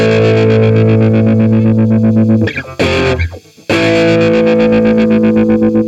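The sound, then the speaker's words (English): Distorted rhythm guitar chord on A, from the halftime section of a chorus, throbbing with a massive fast tremolo. The loud pulsing cuts out midway into a brief scratchy, noisy gap, then the tremolo-chopped chord resumes. “every time he hits the A, there's this massive tremolo on it, so it sounds like this.”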